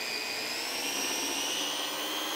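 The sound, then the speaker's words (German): A blender purees blanched spinach into a smooth green colouring paste, its motor giving a steady, dense whirring roar that holds unchanged throughout with no voices. “Ich habe jetzt hier ganz einfach einen blanchierten Spinat und der wird jetzt püriert.”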